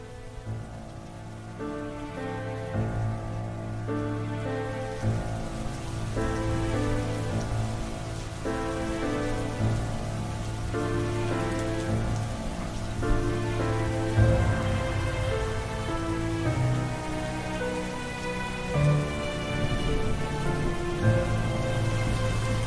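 Rain pours down steadily in a dense, continuous hiss of drops hitting surfaces, holding at an even, fairly loud level throughout without a break.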